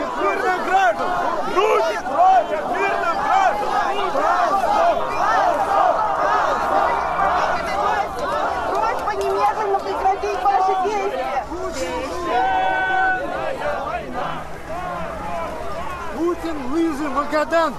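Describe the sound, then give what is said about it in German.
Agitated crowd on Red Square in Moscow hurrying after a woman dragged away by uniformed officers, a loud, continuous babble of many voices with raised shouts of protest throughout. “schleppen eine Frau weg. Die Menge eilt hinterher. Schande, Schande, rufen sie.”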